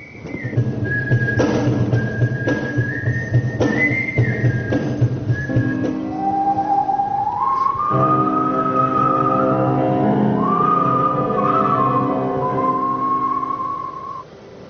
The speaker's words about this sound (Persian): اولین گرد همایی نوازندگان سوت در ژاپن